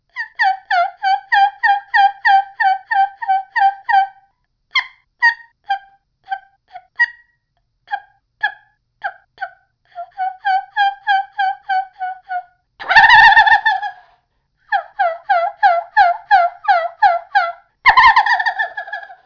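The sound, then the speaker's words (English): A homemade turkey call made from a thin, flexible plastic pill bottle gives runs of many rhythmic, high, raspy yelps. Two brief, louder, harsher bursts break in late on, and no one talks. “But I really think that the thin, flexible plastic in this pill bottle takes away from the sound quality that's coming from this call. But here's what it sounds like.”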